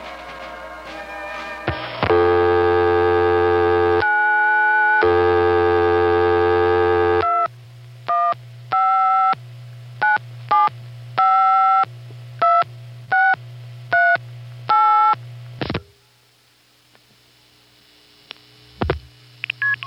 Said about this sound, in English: he had just obtained the wrong number for the Defuniak Telephone Company and was about to originate the call